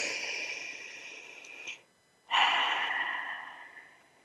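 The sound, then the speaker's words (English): A group takes a deep breath together in a guided exercise. Two long, soft, airy breath sounds are separated by a brief silent pause, and the second is louder. “So let's take a collective breath together.”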